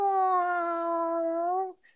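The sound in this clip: A cat gives one long, drawn-out meow, a steady, tonal cry holding nearly level pitch for almost two seconds before cutting off abruptly, loud and clear with no talk.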